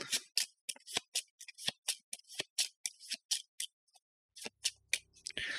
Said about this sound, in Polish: przetasuję te karty